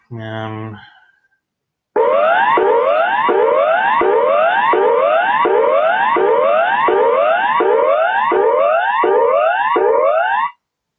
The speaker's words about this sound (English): All right, you're going to hear the emergency signal now, of course.